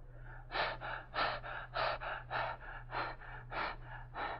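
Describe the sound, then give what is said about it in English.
Deep breaths drawn in and pushed out through an open mouth during a doctor's examination: a steady run of many even, breathy huffs with no talking over them. “open your mouth and very deeply breathe in and out until I tell you to stop.”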